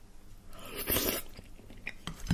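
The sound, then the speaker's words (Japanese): Chewing as someone eats horsehair crab meat mixed with crab miso from a spoon, soft wet crunching and mouth noises at a steady pace, fairly quiet, with no talk. “これをちょっとカニ味噌と、あえて、いただきたいと思います。最後ね、スプーンで、豪快に。”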